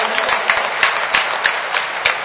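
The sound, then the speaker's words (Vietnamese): A Catholic audience applauds to give thanks during a Mass: loud, dense and steady clapping with a few sharper slaps standing out, and no voices. “Cho nên trong tâm tình đó, anh em chúng ta cho một tràng pháo tay để chúc mừng và tạ ơn Chúa.”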